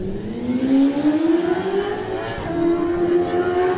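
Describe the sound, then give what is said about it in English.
A Suzuki GSX-R racing motorcycle pulls away at a race start, its loud engine note climbing steadily in pitch as it accelerates, with no voices over it. “24 is next to go, the Master Choice fencing machine of Matt Stevenson on 24, his GSXR gets away.”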